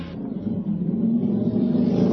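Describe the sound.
Engine of a motorcycle with a sidecar arriving: a steady, low, rumbling motor drone that grows slightly louder toward the end.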